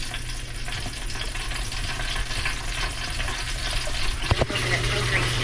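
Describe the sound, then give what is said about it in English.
Butter melts and sizzles while meat roasts on a grill, giving a steady, fizzing crackle throughout. A couple of sharper clicks stand out near the end. “What you're hearing now is probably butter melting.”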